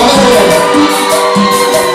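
Women in a crowd scream and cheer at a live Spanish-language concert recorded in 2012, a loud, dense, continuous roar that stays steady throughout with no clear breaks.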